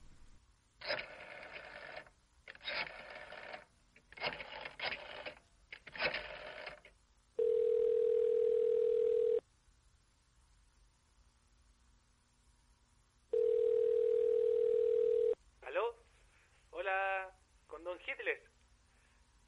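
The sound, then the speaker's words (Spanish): Telephone ringing tone on a call placed from San Marino to the German Chancellery: two long, steady, mid-pitched rings separated by a silent gap, with people talking before and after them. “no encontraron nada más rápido que una llamada telefónica a la Cancillería alemana. Ya me imagino cómo fue esa llamada.”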